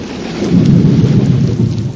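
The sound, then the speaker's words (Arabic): Deep, rolling rumble of thunder over steady heavy rain during a rainstorm, loud and continuous throughout, swelling slightly in the middle. “أوه، صوت الرعد مخيف، لكنه يأتي بالخير، بالمطر.”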